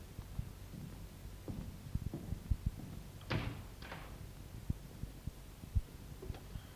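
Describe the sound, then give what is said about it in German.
Door opening in a German radio drama as the police arrive, heard as a few faint latch clicks and two short scraping bursts, alone without talk. “Das wird vermutlich die Polizei sein. Bitte öffnen Sie, Albert.”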